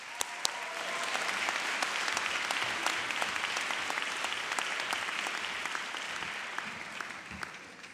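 Audience applause after recognition of a group finishing their academic year: steady, dense clapping that holds at an even level for the full stretch, with scattered sharper claps poking out and no talk over it.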